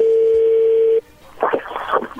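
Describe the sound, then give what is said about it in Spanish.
A telephone line is being dialed: a steady, mid-pitched dial tone holds for about a second, then cuts off and gives way to a short, busy cluster of mixed tones and line noise. “vamos a marcarle a Leti y vamos a ver qué sucede”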